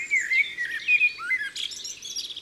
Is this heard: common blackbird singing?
yes